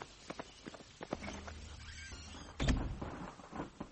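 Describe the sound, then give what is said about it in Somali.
Knocking on a door comes as a series of faint, uneven raps. A heavier thump lands partway through. “waxaasi albaabka la garaacaya”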